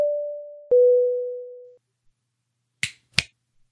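Two crisp finger snaps in quick succession, made during a number game, follow a sustained electronic beep tone that is broken by a click partway through.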